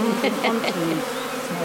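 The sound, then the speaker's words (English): Honeybees buzz around an open hive during a brood-frame inspection. A dense, steady, loud hum with a few brief swelling bursts carries on without a break. “It's making me quite hot with the bees buzzing about me.”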